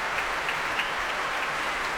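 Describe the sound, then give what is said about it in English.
An audience at a BBC Proms concert by the BBC Concert Orchestra applauds and cheers as conductor Keith Lockhart takes another bow. The clapping is dense and steady and keeps an even loudness throughout. “But as Keith Lockhart comes on to take yet another bow and the cheering continues, I'm afraid that is it for tonight.”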